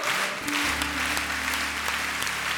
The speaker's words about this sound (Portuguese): E aplauda mesmo a palavra de Deus.